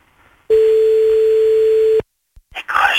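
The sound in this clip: Ringing tone on an outgoing telephone call: one long, steady, medium-pitched beep lasts about a second and a half and then cuts off, followed by a few clicks and a burst of line noise.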